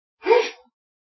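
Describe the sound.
A single short sneeze during an Islamic religious study lecture, a brief breathy burst heard alone.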